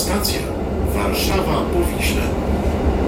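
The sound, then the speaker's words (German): A train crossing a steel bridge over the Vistula river makes a steady, dense rumble with rattling and hiss that stays even in loudness throughout, while a voice talks over the noise. “an dem anderen Zuggeräusch. Fahren wir über so eine Stahlbrücke an die Weichsel.”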